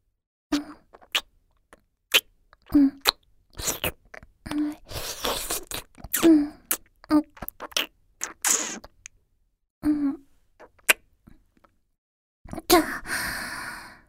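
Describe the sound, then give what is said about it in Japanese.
Kissing, many short wet lip smacks in an uneven rhythm, separated by soft breaths and brief quiet gaps, faint and alone. “あなた様、もう一度、キスしてもよろしいでしょうか？”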